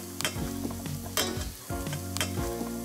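Garlic, mushrooms, rosemary and butter sizzle steadily in a frying pan while being stirred, with a few sharp scraping strokes cutting through the crackle.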